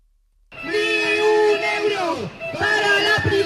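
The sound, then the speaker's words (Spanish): Students on a protest march through central Zaragoza chant loudly together, some using megaphones, in two strained, shouted phrases that rise and then fall away. “Desde los más pequeños con sus gargantas. ¡Dinero público! ¡Dinero público! Hasta los más mayores con megáfonos.”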